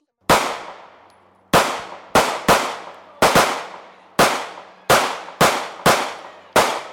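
Ten sharp gunshots from a gun fired at a man-silhouette target on a shooting range, each a loud crack with a quickly fading ring, spaced irregularly with a long pause after the first and closer shots later.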